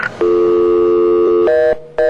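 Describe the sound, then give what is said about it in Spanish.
Electronic telephone line tones follow a hang-up during a call: a loud, steady tone holds for over a second, shifts to a higher pitch, stops briefly, then starts again at the end. “¿Quién te crees que sos que nos cortas el teléfono?”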